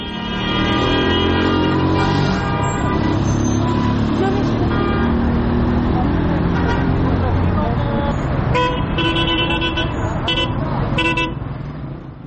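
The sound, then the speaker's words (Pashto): Busy street traffic at a Kabul city stop for cars and national buses: a dense, loud, continuous din of engines with repeated horn toots, and voices mixed into the noise. “زه هم د کابل ښار د موټرونو یو تم ځای ته چې هلته خلکو په ساعتونو د موټر یا ملي بسونو انتظار کوه ورغلم”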